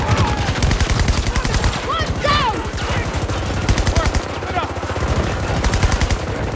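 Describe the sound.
Rapid automatic gunfire in a team shooter video game, with long bursts of evenly spaced shots broken by short gaps while players talk over the shooting.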